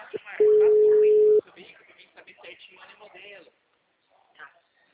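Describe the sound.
A single steady telephone ringing tone of about one second sounds while a call is placed to ask about a car for sale, followed by a person talking.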